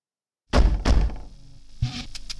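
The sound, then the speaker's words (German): Knocking on a door: a few heavy, dull knocks in quick succession, fairly loud, followed after a pause by a softer thud, with no voices. “und klopfte einfach an die Tür”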